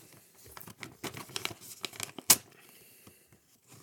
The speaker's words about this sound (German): So, der Umschlag ist geöffnet. Ich ziehe den Brief hinaus.